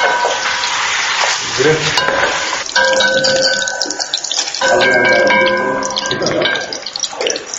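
Food frying in a pan in a student dorm kitchen: a loud, continuous crackling sizzle that surges and ebbs, with steady tonal hums running underneath.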